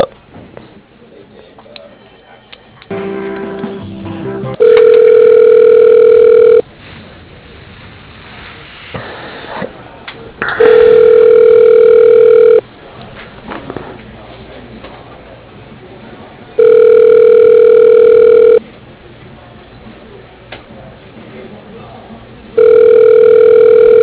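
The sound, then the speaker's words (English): Ringing tone on a telephone line while a call is being transferred: a steady, mid-pitched electronic tone repeats four times, each lasting about two seconds with quieter gaps of roughly four seconds, the last one cut short. “Stay on the line. I'm going to transfer this call to Ian.”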